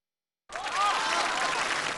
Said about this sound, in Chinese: 感谢大伙把这么热烈的掌声给了我一个人